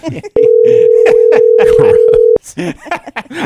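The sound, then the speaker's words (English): A phone signals an incoming call with one sustained, loud electronic tone lasting about two seconds while people keep talking over it. “Not answering this. Dick Broadcasting's calling me.”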